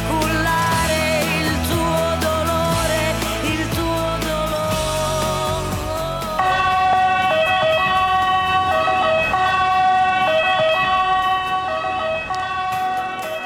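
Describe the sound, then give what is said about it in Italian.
An ambulance siren wails steadily and loudly throughout, its tone holding high and continuous with no talking over it. “abbiamo concluso poi con l'ambulanza”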